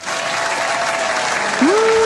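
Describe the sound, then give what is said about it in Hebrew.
Applause from an audience, dense and steady clapping that holds at an even level throughout, with a short rising tone cutting in near the end. “איזה סאונד יפה זה כפיים. רק ככה אני רוצה לישון, ככה עם כפיים”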